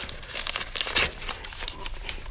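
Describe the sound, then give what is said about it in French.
Paper tearing and crinkling as an envelope is ripped open, a few short, bright rustling bursts in quick succession with the loudest rip near the middle. “Oh, une enveloppe! Encore une enveloppe! Vite, ouvre!”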